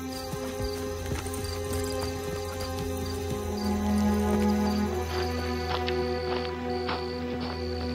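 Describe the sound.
Horses walk toward a stable, their hooves clip-clopping in many evenly spaced knocks throughout, set over a steady continuous background.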